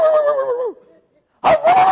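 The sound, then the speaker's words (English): A voice imitating a dog howling and yipping: a sustained tonal howl whose pitch drops sharply at its end, a short silence, then a second loud, wavering howl. “he sprayed that dog again. And once again, that dog go,”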